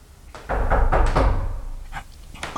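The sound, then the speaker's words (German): A driver getting out and opening the rear hatch door of a vehicle makes a quick run of several dull clunks and rattles. Two fainter, separate clicks follow. “Ja, der Fahrer, der steigt aus. Jetzt öffnet er die Hecktür.”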